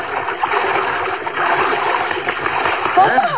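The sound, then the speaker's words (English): Water splashes as a person swims up to a raft just offshore, a steady churning wash throughout, with a voice starting up near the end. “Go for an afternoon swim. Out to a raft just offshore. She's sitting there as you swim up.”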